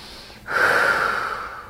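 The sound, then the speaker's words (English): A deep breath: a sudden rush of air begins just under half a second in and holds as a steady, fairly loud breathy hiss until the end. “every time I remember to take a breath, I'm like, oh yeah,”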